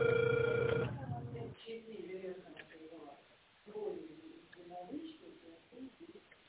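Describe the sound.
Telephone ringback tone during an outgoing call: one steady, loud tone lasting about a second, then talking.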